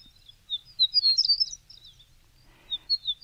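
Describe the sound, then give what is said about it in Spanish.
A horned lark (Eremophila alpestris) sings in bright, high, thin twittering phrases in clustered bursts, pauses briefly, then resumes near the end over a faint low rumble. “Es la alondra cornuda, nombre científico Eremophila alpestris.”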